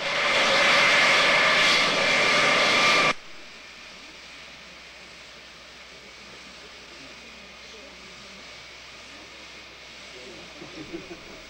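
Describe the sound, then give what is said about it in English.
Airplane taxiing back to the terminal, a loud steady engine roar for about three seconds, then an abrupt drop to a quiet, low, continuous hum. “Ross, seated in the plane, looks concerned as it begins to taxi back to the terminal.”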